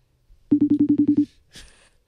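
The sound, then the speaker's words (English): Eight quick, evenly spaced beeps as a telephone is dialed for a call, followed by a brief noisy burst. “So let's dial her up here. We're going to call Mama.”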